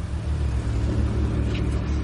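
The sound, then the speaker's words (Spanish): A taxi driving down into an underground car park: a steady, low engine rumble at an even level, with no sharp changes in pitch or loudness. “El taxi da marcha atrás. El taxi baja a un parking subterráneo.”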